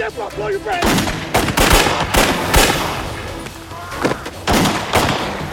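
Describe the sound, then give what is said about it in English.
Gunfire exchanged between a police officer and an armed suspect: many loud, sharp shots in irregular bursts, some close together and some separated by short gaps, over a noisy background. “I have been shot at and I have hit the subject.”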